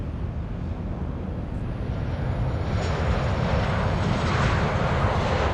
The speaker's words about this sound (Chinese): 受令紧急轰炸黄河濒临任务的3架轰炸机，各挂8枚航爆弹，从位于关中平原的某机场依次升空。